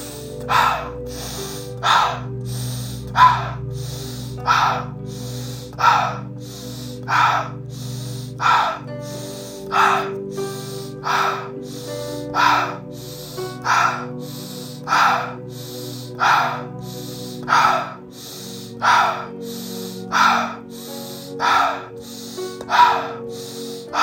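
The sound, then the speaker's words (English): Rapid breathing exercise, inhaling through the nose and exhaling through the mouth for 25 breaths: strong, steady, evenly spaced breaths of sharp whooshing air repeat one after another throughout, with no talking. “So we're going to do inhale nose, exhale mouth. 25 breaths. Let's go.”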